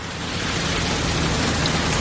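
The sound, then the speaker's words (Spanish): Heavy rain pours down by a wire fence where a dark off-road vehicle has stopped. It makes a dense, even hiss that stays loud and steady the whole time, with no voices. “Llueve con fuerza.”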